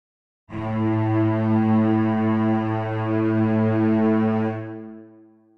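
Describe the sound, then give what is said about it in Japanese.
Several cellos bow the same low note in unison, a single rich, mellow sustained tone that holds steadily for about four seconds, then fades away. “複数の演奏者が同時に同じ音を鳴らすユニゾンでは音の個性が相殺されてまろやかになります。こんな感じです。”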